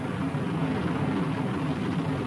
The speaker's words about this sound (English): Lift off. Main engine is a nominal thrust.